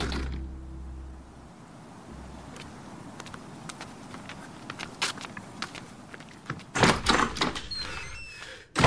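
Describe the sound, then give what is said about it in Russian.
Light footsteps and small clicks lead up to a louder clatter as a door is shut, with a final sharp knock at the very end; no voices. “Алекс убегает во двор, закрывает дверь.”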